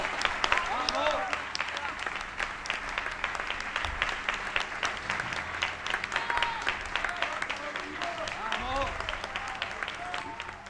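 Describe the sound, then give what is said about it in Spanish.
Applause from a crowd after a politician announces withdrawal of a pre-candidacy. Dense, steady clapping runs through the whole clip while a voice speaks over it at times. “lo están aplaudiendo porque... Por lo que no va a ser.”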